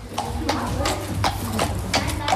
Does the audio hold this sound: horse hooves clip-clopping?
yes